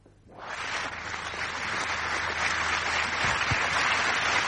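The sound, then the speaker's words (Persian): An audience applauds as two guest artists are invited onto the stage of a show. The clapping swells in quickly and holds as a steady, dense roar. “دوتا مهمون هنرمند داریم که اونا رو روی صحنه دعوت میکنیم، براشون دست میزنید و میان روی صحنه”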